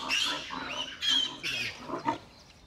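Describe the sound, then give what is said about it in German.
Sows and piglets grunting as they are driven across a meadow: a few short, rough, snuffling bursts at moderate loudness, with no talk. “Hauptsache, die Sauen marschieren in die richtige Richtung. Die Ferkel folgen sowieso.”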